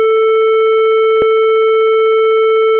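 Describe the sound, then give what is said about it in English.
Second test tone in a pitch comparison exercise: a loud, steady pure tone held unchanging for about three seconds, with a faint click partway through. “Okay, got it clear in your head, now I'm going to do the second tone. Here comes tone number two, you tell me if it's higher, lower,”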